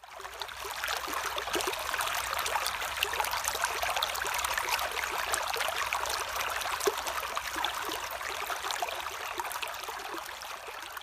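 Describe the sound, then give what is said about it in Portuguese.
A small, fast-flowing river running over a stony bottom makes a continuous rushing, babbling wash of water. The sound stays steady and even throughout, with no voices. “Esse barulho que estamos escutando é um rio pequeno, mas que corre bem ligeiro. Você consegue imaginar um riozinho cheio de pedras no fundo”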